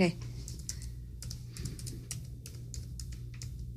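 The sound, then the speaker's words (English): Keys clatter on a computer keyboard in many rapid, uneven taps, quiet and continuous over a low hum, with faint voices talking in the background. “You want to type that stuff down? So. Oh, sure. Here, are you at the slash? Yeah, go ahead. Type it.”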